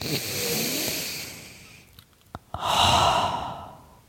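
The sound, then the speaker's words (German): A deep breath in and out: a steady rushing inhale, a pause broken by a few small clicks, then a strong airy exhale that swells and fades away. “Und darauf nehmen wir jetzt mal einen tiefen Atemzug.”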